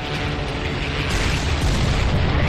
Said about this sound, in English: they will create this thing called the LCTR. Now, this is a landing craft tank rocket.